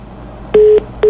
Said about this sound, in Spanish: Bueno, se cortó la llamada, ojalá se pueda comunicar de nuevo con nosotros.